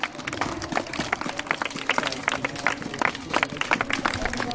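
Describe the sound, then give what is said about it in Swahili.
A church audience claps together, many hands producing a dense, continuous patter of sharp claps that stays fairly steady in loudness throughout. “Pigie Yesu makofi.”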